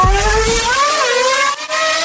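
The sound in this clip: A car engine revs as it accelerates. Its whining tone climbs, dips briefly and climbs again, over a low rumble at the start, with no voices.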